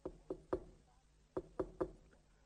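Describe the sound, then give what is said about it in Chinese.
Soft knocking on a door: two sets of three quick, light raps separated by a short pause, faint and alone. “侯军吉呢，在外边就轻轻的敲门”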